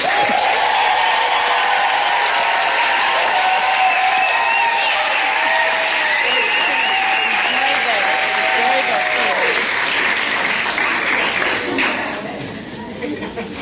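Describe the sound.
An audience applauds and cheers to welcome a speaker onstage at a Johannesburg event, a dense, loud and sustained roar of clapping with shouts that tapers off in the final seconds.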